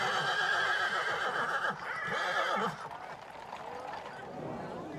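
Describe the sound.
Horses whinny after a Whitsun horseback procession. Long, loud neighing fills the first few seconds, then gives way to quieter hoof clops and background noise.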